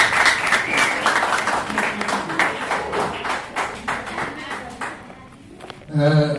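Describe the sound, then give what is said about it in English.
An audience applauds to welcome a Kenya Patriots Party guest at a party congress, with dense clapping from many hands that thins and fades toward the end, followed by a voice. “Tupige makofi akija.”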